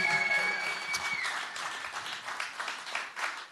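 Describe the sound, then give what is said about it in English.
An audience at a live gig gives sustained, dense applause that carries on for several seconds and eases slightly toward the end. “So give him a big round of applause.”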